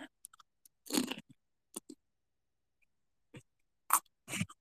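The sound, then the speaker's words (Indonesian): Kerupuk crackers being crunched, a few sharp, crisp bites and crackles scattered between quiet pauses, with the loudest crunches standing out clearly. “Waduh, kriuk kriuk apa tuh? Kerupuk.”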